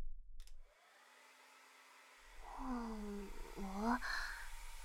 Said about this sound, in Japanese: じゃあ、髪、乾かしていくけんね。